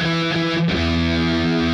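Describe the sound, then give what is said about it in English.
An electric guitar plays a short riff in E through a crunchy, distorted amp effect in Logic. Two thick, sustained notes are heard, and the harmony shifts to a lower-rooted sound partway through. The guitar plays alone and loud. “If we were to play in E, that riff in E, it would sound like this.”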